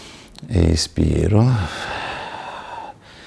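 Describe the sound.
A breath out during a core exercise with a ball squeezed between the knees, as a voice speaks briefly and is followed by a soft, breathy airy exhale that fades gradually.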